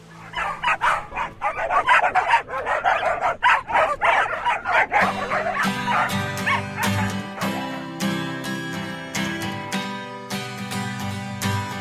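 Dog barks and yips woven into a music track form a fast, rhythmic run of short, sharp bursts for about five seconds. Sustained tonal music with crisp percussive hits then takes over for the rest.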